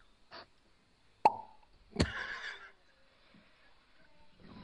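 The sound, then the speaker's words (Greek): A cork pops out of a bottle with a single quiet, sharp, hollow pop. A brief, noisy hissing burst follows. “Μπουκάλι, το οποίο φελός, που βγαίνει από το μπουκάλι.”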